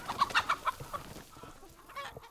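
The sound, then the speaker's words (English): Egg-laying hens clucking as they are rotated through the fields: a quick run of several short, sharp clucks at the start, then softer, scattered clucking. “He has 300 egg-laying hens that he rotates through the fields.”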